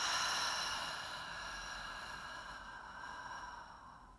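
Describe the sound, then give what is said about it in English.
A deep breath in through the nose and out sounds as one soft, airy breath that stretches continuously over about four seconds and slowly fades, with no talking. “Take a big breath in through the nose. Big exhale out.”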